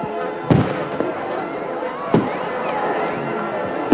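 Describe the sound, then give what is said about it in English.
Fireworks rockets burst in the night sky with a few sharp bangs, while whistling and crackling trails fill the spaces between the louder reports. “Superb rockets shimmering away, bursting in the sky.”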